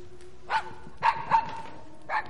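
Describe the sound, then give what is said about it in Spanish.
Four short, high yips or barks come from a dog bringing a ball in a night-time horror film scene. They are soft, spaced unevenly over a quiet background with a faint steady hum. “El perro trae la pelota.”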